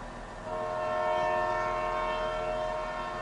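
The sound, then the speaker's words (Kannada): A train horn sounds as a train leaves the station: a loud, sustained, steady tonal blast that begins after a short quieter lead-in and holds to the end. “ಇನ್ನೂ ಬರ್ಲಿಲ್ಲಲ್ಲೋ, train ಬಿಡ್ತು.”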